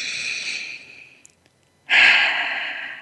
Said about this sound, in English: So let's breathe that in.